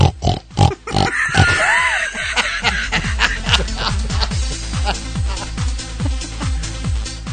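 Rapid, rhythmic grunting of a male wild boar: many low, throaty pulses repeat steadily throughout, with a brief higher squeal early on.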